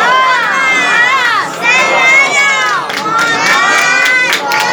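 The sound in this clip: A crowd recites the salawat blessing in unison, honoring the Imam. Loud, massed voices chant with rising and falling melodic lines, pausing briefly between phrases.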